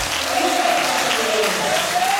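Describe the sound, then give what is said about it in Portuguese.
An audience applauding at a religious worship gathering, a dense, steady wash of many hands clapping that holds at an even level throughout and swells slightly at the very end. “Quem está sentindo a presença dele, aplauda ele. Aplauda mais forte aí,”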